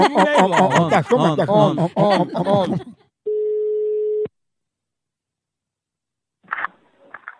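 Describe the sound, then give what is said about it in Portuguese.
A telephone ringing for an incoming call: one steady, mid-pitched ring tone lasting about a second, coming after a stretch of talk and followed by silence, then brief voices. “a gente aqui do Instituto das Pessoas Cansadas e a gente tá ligando para a senhora para ajudar no seu tratamento contra a preguiça”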